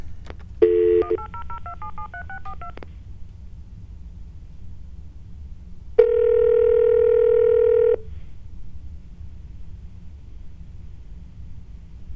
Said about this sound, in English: You have dialed a number that is not available from your calling area.